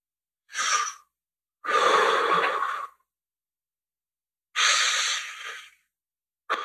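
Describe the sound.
Slow, deep belly breaths taken during a box-breathing exercise: three long, airy breaths separated by silent holds, with a fourth breath just starting at the end.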